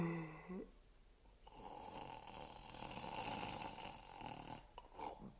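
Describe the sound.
A sleeping man snores faintly, a drawn-out, raspy breath that swells over a few seconds and then fades.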